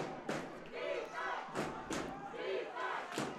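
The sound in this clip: A football crowd chants "defense" in rhythmic, repeated roaring shouts, each surge of voices punctuated by thumps and stomps, rising and falling in a steady pulse throughout.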